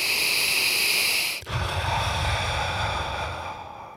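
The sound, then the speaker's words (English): A deep breath drawn in through the nose and let out through the mouth: a steady hissing inhale of about a second and a half, then a lower, rougher, breathy exhale that slowly fades. “Take a deep breath in through your nose, breathe out through your mouth.”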